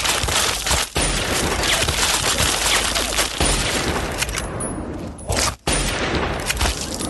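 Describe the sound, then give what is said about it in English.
Repeater rifle fire in a video game shootout, heard as a dense, loud, continuous barrage of shots with only brief breaks. “I may try a free fire with Lincoln's repeater.”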